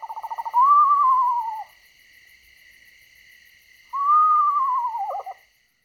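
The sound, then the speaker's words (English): Eastern screech owl giving its whinnying call: two long, quavering tremolo notes, each rising briefly then sliding downward and ending in a wavering flutter, separated by a pause, over a faint steady chirring of insects. “That is the sound of an eastern screech owl. Has two calls, a kind of whinny and then that hooting call.”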